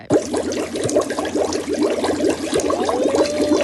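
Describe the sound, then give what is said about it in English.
Bubbling water from a pool, a steady, continuous churn of gurgles and fizzing with no pauses, even in loudness throughout. “it does sound like bubbling water, doesn't it? It does sound like bubbling water. You reckon it could be bubbling water from a pool then? Just tell us. Yep. Yes! Yep, sure is.”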